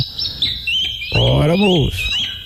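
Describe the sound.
A small bird chirps in repeated thin, high tweets throughout, while a voice speaks briefly in the middle.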